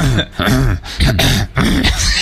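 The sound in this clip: A voice imitates throat clearing and coughing in a few rough, gravelly bursts in quick succession. The bursts are loud and harsh, with short gaps between them, and there is no other sound.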